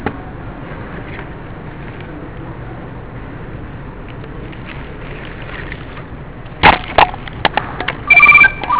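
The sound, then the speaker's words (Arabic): A telephone rings after a long stretch of low, steady background noise, a few short bright electronic bursts close together near the end. “خذ، رد عليه قول له تليفونك معنا. رد”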